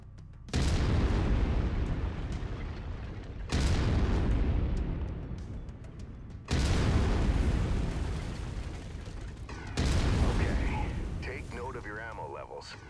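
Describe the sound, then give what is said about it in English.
A video-game autocannon fires four heavy booming shots at a steady pace about three seconds apart. Each shot trails off in a long rumbling decay, and a voice speaks over the last one. “I've mapped the autocannon to weapon group one. You're free to fire whenever you're ready.”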